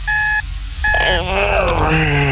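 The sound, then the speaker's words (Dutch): Alarm clock ringing with two loud bursts of a steady, high electronic beeping tone. The second burst runs straight into a busier mix of other sound that fills the rest. “De wekker gaat en gaat.”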